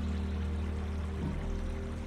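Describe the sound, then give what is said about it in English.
River water flowing in a continuous soft rushing wash with a low steady hum beneath. It is unbroken and even throughout, with no voices. “As you tune in to the soothing melody of the river, the whispering of the breeze,”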